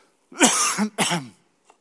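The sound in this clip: A person coughs twice in quick succession from a tickle in the throat. Both coughs are short and harsh, the second slightly shorter, with no talking around them.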